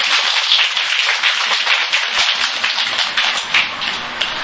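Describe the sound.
Audience applause at a Buddhist dharma talk: many hands clap in a dense, even patter that stays loud and steady throughout, with no voices.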